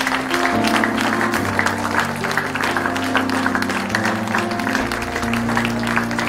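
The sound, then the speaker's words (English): A church audience gives a hand clap of praise during a morning service, a steady dense clapping over sustained keyboard or organ chords that shift in pitch throughout. “give him a hand clap of praise this morning.”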